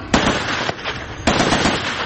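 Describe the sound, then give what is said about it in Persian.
Gunfire from soldiers kneeling in muddy trenches in combat: dense, crackling bursts of shots that run almost continuously, with a few sharp, louder onsets cutting in. “سربازانی که پرچم اوکراین روی یونیفرم های پلنگ رنگشان نقش بسته در سنگرهای گلالود زانو زده و تیراندازی می کنند.”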